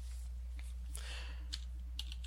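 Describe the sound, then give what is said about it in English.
Typing on a computer keyboard: a few faint, scattered key clicks at an uneven rhythm, sitting over a steady low hum. “and I am not typing particularly effectively”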